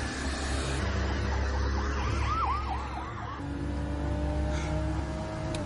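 A police patrol car siren wails during a high-speed car chase in an action crime thriller. The warbling, rising-and-falling tone sits over a steady low engine rumble, and the siren pattern drops away after about three seconds.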